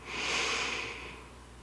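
A slow breath drawn in during a guided relaxation exercise, heard alone as a single steady, airy hiss that swells early and then gradually tapers off over about a second and a half.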